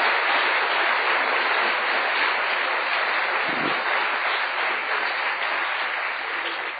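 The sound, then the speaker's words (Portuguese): Applause from a church audience, a dense, sustained clapping roar that stays loud and even throughout with no voices standing out. “Vamos dar uma salva de palmas para Jesus”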